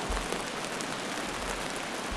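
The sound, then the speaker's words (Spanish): Heavy rain shower pouring down, brought by rain-laden southerly winds: a dense, steady hiss of falling water that stays loud and unbroken throughout, with no voices. “un chaparrón está en este momento produciéndose en ciertas zonas de Ulaland, obligando a los habitantes a ponerse el abrigo, a proveerse de toda urgencia de ropa de lluvia y de paraguas.”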